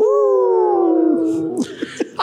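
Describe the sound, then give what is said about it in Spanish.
Audience members howling like wolves together: many overlapping voices hold one long, drawn-out howl that slowly falls in pitch, then break off into scattered short cries. “¡Háganle! ¡Aúllen!”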